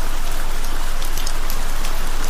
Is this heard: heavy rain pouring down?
yes